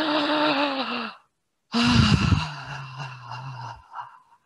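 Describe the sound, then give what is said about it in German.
Deliberate audible breathing in and out, two long, loud breaths separated by a short silence, the second carrying a low hum of voice like a sigh before it trails off. “Und zwar einfach ganz konkret einatmen, ausatmen und zwar so, dass du dich hörst mal.”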